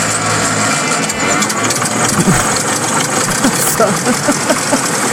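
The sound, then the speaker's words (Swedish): A tractor engine that has not been run for about a week idles with a steady, loud, rough rumble and irregular knocking pulses throughout. “Kan vi se om den startar nu? Vi har inte haft igång den på någon vecka. Så där. Nu startar in.”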